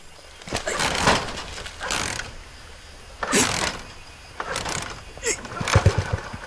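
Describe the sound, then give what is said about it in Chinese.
An old, worn-out car engine failing to start: a few separate bursts of rough mechanical cranking that do not catch, with people talking around them. “这破车又发动不起来了。”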